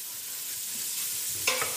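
Food roasting in a pan and being stirred with a wooden spoon: a steady bright sizzling hiss. A brief scraping stir rises out of it near the end.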